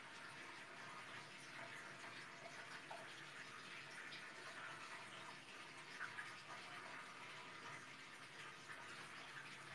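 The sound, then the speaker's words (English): Water draining down a drain: a continuous, even rushing hiss of flowing water, quiet and unbroken throughout, with no voices. “There we go. Drain, baby, drain.”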